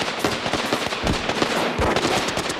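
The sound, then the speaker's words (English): Gunfire rips through a wall as cult members shoot at federal agents inside a fortified compound: a dense, rapid stream of sharp cracks that carries on loudly for the whole clip. “Cult members fire quarter-sized holes through the wall and into this agent's shoulder.”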